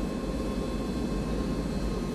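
A steady roar from an airplane in flight, broad and unbroken, holding at an even level throughout with no distinct events.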